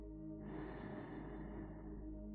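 A single deep, slow breath is taken during a guided meditation. It sounds soft and airy and lasts almost two seconds over a quiet low hum.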